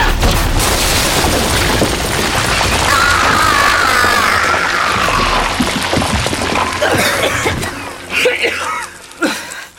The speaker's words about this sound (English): Why are you shooting at it? I thought you said you couldn't kill it! No, but now's the time to bring the roof down!